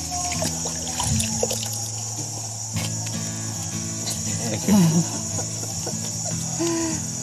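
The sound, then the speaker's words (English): Water splashes and trickles as someone washes their face, a soft, uneven wet patter set against a steady high insect drone and a few low, drawn-out animal calls. “For me to wash my face. Ah, I feel much better.”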